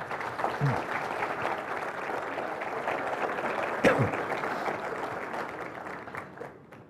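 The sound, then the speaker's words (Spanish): Audience applause follows the introduction of a priest at a Catholic lecture: steady, dense clapping that holds at an even level for several seconds, then thins slightly at the end. “el padre Alfredo Sainz, para quien pido un aplauso fuerte.”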